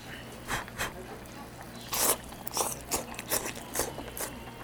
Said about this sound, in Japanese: 鶏肉がね結構でかいんですよ。 ものすごくでかい。 じゃあこれお肉いただきますよ。